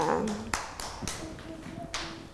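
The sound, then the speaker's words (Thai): Children at school clap a few separate, sharp slaps that are spread unevenly across the moment. They stay fairly faint and sparse rather than building into a steady round of applause. “ปรบมือให้น้องกันหน่อยค่ะ”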